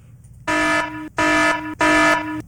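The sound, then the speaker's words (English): Three loud, harsh alarm buzzer blasts sound in an even rhythm. Each lasts about half a second, with short silent gaps between them. “Okay, so that's alarm. An alarm. It's just an alarm.”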